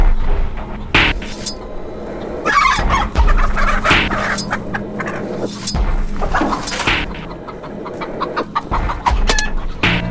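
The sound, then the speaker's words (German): Chickens cluck in a coop, a busy flock giving loud, overlapping clucks and squawks throughout, with a few faint clinks among them. “dafür darfst du das erste Huhn des Tages aus dem Stall holen”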